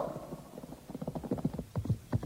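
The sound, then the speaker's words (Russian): Horse hooves clip-clopping as a mounted retinue of about fifteen staff officers rides on well-groomed horses. Many uneven hoof beats in a loose rhythm, louder and sharper in the second half. “Сзади него, нестройной блестящей группой, двигалась свита около 15 штабных офицеров на прекрасных выхоленных лошадях.”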